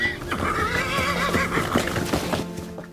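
An old, worn-out horse neighing: a loud whinny with a quickly wavering pitch that carries for most of its length, with some dull thuds beneath it.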